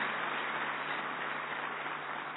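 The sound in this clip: An audience claps in welcome for an honoured guest at a gathering. The applause is a steady, dense wash that holds at an even level throughout.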